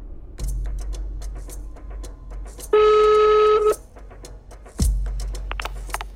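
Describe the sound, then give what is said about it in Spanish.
A telephone being dialed to call back after a dropped call: scattered soft clicks, then one steady electronic tone held for about a second, then more clicks. “Aquí la llamada se corta. Así que lo vuelvo a llamar.”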